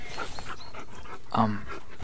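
A dog pants softly with a brief, higher whimper partway through, all faint and low in level.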